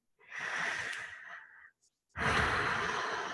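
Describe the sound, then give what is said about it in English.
A slow deep breath taken during a relaxation exercise: one long airy inhale, a brief silent pause, then a strong, breathy exhale that runs to the end, with no talking. “let's just slow down for a second and take some deep breaths into our body.”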